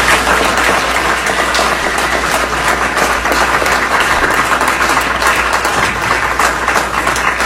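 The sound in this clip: Loud applause from city-county councilors at a meeting: dense, steady clapping that holds at full strength throughout without a break.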